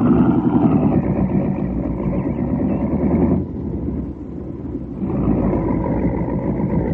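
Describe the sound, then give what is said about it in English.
A car engine running low on fuel and acting oddly: a loud, steady engine drone that drops in strength partway through, then picks back up to its earlier level. “Seems to be acting in a funny way. Did you remember to have the tank filled? No, you didn't. You're on empty. I hope you can make it to the next garage.”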